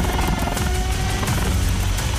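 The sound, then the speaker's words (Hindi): Air force helicopters roar steadily while flying rations to cut-off flood areas, a loud, dense, unbroken rotor-and-engine rumble with no pauses. “हवा में गरजते वायुसेना के helicopters कटे हुए इलाकों में राशन पहुंचा रहे हैं”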